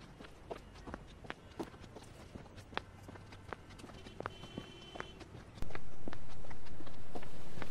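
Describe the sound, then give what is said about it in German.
Footsteps of a man walking toward a company headquarters building: a steady series of soft, scuffing steps at a walking pace. Near the end, an abrupt loud, constant rushing noise takes over. “Andre steigt aus und geht auf das Hauptgebäude der Axiom Corp zu”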